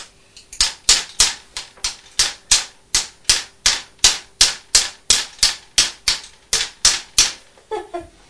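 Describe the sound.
Rapid, steady tapping of a toy hammer used by a child: many sharp, bright knocks in an even, quick rhythm, with a few softer clicks trailing off at the end.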